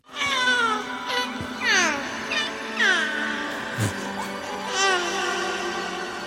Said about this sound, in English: the baby sounds like a malfunctioning rubber ducky chew toy